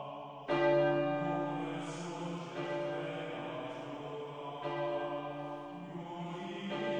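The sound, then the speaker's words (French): Church bells ring in full peal during a religious procession. Several strikes have long, overlapping resonant tones that swell and hang in the air, fairly faint, with no voices. “des cloches qui sonnaient à toute volée”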